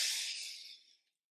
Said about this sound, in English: One more. Deep breath in.